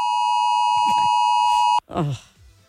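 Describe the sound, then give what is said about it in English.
A 2 o'clock alarm sounds one long, steady electronic beep tone that holds for almost two seconds and then cuts off abruptly, with voices talking over it and after it. “Oh, that was that 2 o'clock alarm.”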